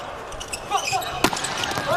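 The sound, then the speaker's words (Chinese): A volleyball serve during a match: a single sharp smack of the ball is heard midway through, set against a constant wash of crowd noise. “好发球， 敢发。”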